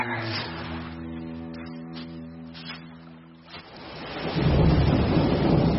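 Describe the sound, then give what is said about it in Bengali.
Steady drizzling rain falls with rumbling thunder. A sustained humming drone fades out partway through while the hiss of the rain swells louder and keeps on without pause. “এদিন বেলার দিক থেকে টিপটিপ করে নাগাড়ে বৃষ্টি শুরু। তার আর বিরাম নেই, বুঝলেন।”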